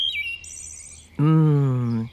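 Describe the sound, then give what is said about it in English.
Wood thrush call, a clear high whistled note that dips and then holds steady alongside a fainter higher tone. It is followed by a louder, lower, harmonically rich tone that slowly falls. “Do you hear that bird call? That's a wood thrush.”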